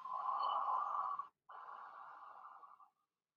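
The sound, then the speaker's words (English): A deep breath in followed by a slow exhale: two breathy rushes, each lasting over a second, separated by a brief pause. The second rush is slightly quieter and trails off to silence. “deep breath in. And exhale slow.”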